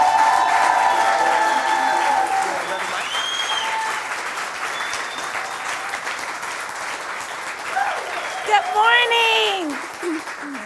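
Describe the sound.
A church audience stands to applaud and cheer in welcome for a visiting pastor couple. The clapping is sustained and dense, with whoops and voices rising over it near the end.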